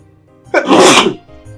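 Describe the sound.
A single loud, forceful sneeze bursts out and lasts about half a second, with near silence before and after it.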